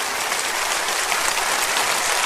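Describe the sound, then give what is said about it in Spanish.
Congregation at a Spanish-language church service applauding in thanks to God, a brief, loud burst of dense, continuous clapping. “Dele un aplauso de agradecimiento.”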